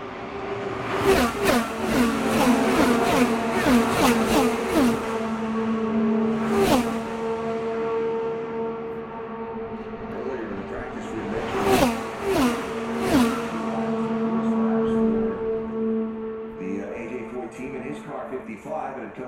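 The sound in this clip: IndyCar race cars pass during 2023 Indianapolis 500 practice, their high, steady engine whine sweeping by in several loud passes with sharp bursts. A man's voice talks over the cars throughout.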